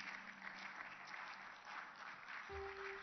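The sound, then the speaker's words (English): Church audience clapping during a worship service, a sustained, dense patter of many hands, steady and faint. A held musical tone joins near the end. “Praise the Lord. Let's jam our hands together once again.”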